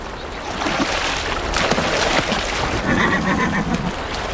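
A wild stallion and his herd at a watering place give a brief, wavering whinny in the second half, partly buried under a steady wash of rushing water noise.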